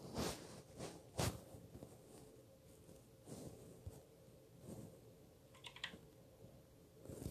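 Keys tapped on a computer keyboard while typing a chat message, an irregular patter of soft clicks with a few sharper strikes, faint and without talk.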